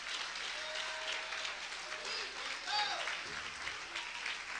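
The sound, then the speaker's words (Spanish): Congregation applause during an evangelical church service: a dense, steady wash of clapping hands that holds at an even level throughout, with a few raised voices calling out over it. “Dale un aplauso a Cristo y yo sigo para adelante. Dáselo más fuerte, me quedo ahí.”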